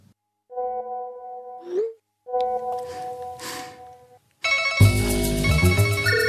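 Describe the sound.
A telephone ringtone sounds twice, each ring a steady electronic buzzing tone lasting over a second, separated by a short gap, then loud music cuts in and carries on.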